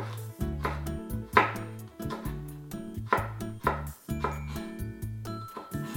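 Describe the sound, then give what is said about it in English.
Knife slicing food into thin strips while preparing shrimp spring rolls: many crisp, rhythmic cuts land on a cutting board with a steady chopping beat. “And then you're gonna take your vertical strips and then slice it again into thin strips.”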